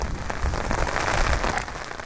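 Heavy rain falls in Schwellbrunn, a dense, continuous patter of drops hitting surfaces that stays loud and even throughout, with no voices.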